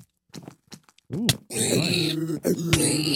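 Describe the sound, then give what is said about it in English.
Minecraft zombie groaning in a video game: a short low moan, then two drawn-out, wavering groans with a hoarse, buzzy tone, loud and close together near the end. “Zombie.”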